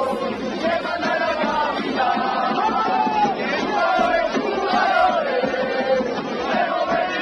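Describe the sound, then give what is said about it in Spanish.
Atlético de Madrid footballers, Juanfran among them, chant loudly together to celebrate winning the title. The rhythmic, sung chant of many male voices repeats continuously without a break. “Ese título provocó este cántico en el que se escucha Juanfran.”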